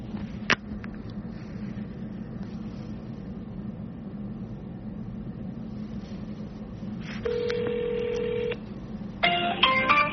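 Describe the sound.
Telephone dialing a number that turns out not to be in service: a single click over a steady low hum, then a sustained dial tone, followed by a quick burst of high keypad tones.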